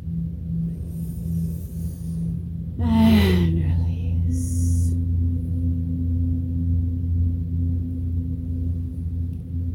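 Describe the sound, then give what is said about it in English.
A group takes a deep breath in and exhales together during a guided meditation: a brief, breathy rush of air rises and fades over a steady low hum. “Take another deep breath in. Exhale. Take one more deep breath in.”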